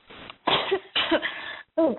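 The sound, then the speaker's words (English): A person coughing: a few harsh, fairly loud bursts separated by short pauses, with no talk between them. “I do have a cough.”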